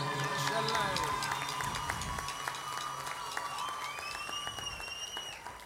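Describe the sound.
Audience applause at a live concert as the band's electric guitarist is introduced. Steady clapping runs under a talking voice and sustained musical tones.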